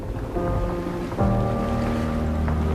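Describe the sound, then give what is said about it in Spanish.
A boat moving forward on the water makes a steady wash of noise under a low engine drone, and the drone shifts to a stronger, deeper tone partway through. “¿Notas como el barco va avanzando un poco?”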